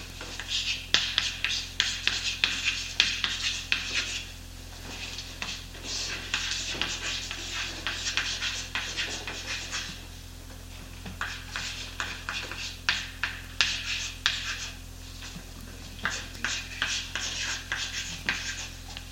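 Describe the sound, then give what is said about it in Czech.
Handwriting strokes scratch and rub as a genealogy is written out by hand, coming in many quick, dry bursts with short pauses between, steady and moderately loud, with no talking. “Já ho tady napíšu.”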